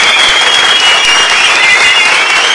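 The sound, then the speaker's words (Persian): Loud, sustained applause from an audience at a Persian-language presentation honoring an engineer. The clapping is dense and steady throughout, with no break and no voices on top. “دوستم اینجا یه یه تشویق بکنی آقای مهندس بابت این خلق بود.”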